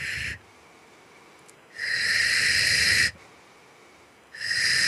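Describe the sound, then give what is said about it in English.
Three forceful, hissing exhalations, breathed out to clear energy. The first is cut short at the start and the last runs into the end, with a long breath between them and quiet pauses in between. “And what I do with it is I use my breath like this.”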